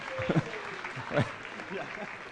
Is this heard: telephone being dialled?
no